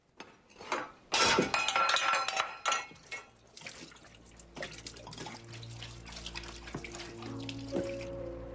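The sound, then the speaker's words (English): Liquid pours from a bottle down a sink drain in a steady, fairly soft stream. A few clinks and knocks of a mug tossed into the sink come first. “After tossing the mug in the sink, he pours the bottle down the drain.”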